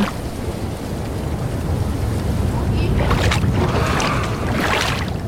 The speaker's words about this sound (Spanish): aquí estamos en el océano profundo